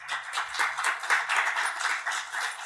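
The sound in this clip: Applause from an audience welcoming two speakers onto a stage: many hands clapping together in a dense, steady patter, fairly loud and sustained throughout.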